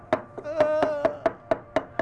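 Chili paste being pounded in a mortar with a pestle: steady, evenly spaced thuds about every quarter second, about nine in all, each a sharp hit with a short ringing tail.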